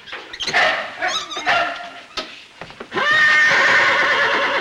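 A horse whinnies: short broken neighs at first, then a loud, sustained high-pitched whinny that carries through to the end.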